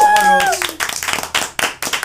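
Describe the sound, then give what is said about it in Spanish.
Applause at Wallbox, a large CrossFit gym in Huancayo, on an evening: a small group claps in irregular bursts that continue after a short voice at the start. “Un aplauso para Wallbox.”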